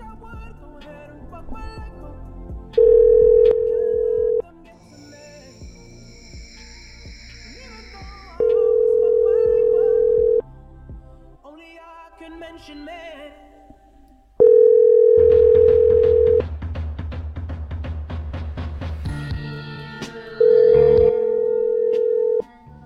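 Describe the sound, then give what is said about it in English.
Telephone ringing tone while calling a house: four steady, evenly pitched tones of about two seconds each, separated by longer pauses filled with other quieter sounds. “Let's call her house now.”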